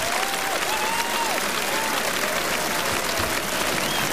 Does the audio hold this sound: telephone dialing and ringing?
no